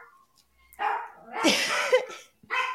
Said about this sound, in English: You got to attend to your lonely dog over there.